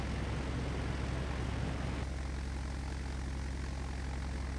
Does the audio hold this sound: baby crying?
no